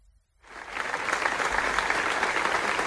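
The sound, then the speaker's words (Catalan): Sustained applause from a large crowd at a memorial gathering in Manresa for a murdered man. It rises from near silence within the first half second, then holds dense and steady to the end. “I aquest és el so d'una de les tres concentracions que hi ha hagut de record a la víctima, en Carles, en les darreres 24 hores a Manresa.”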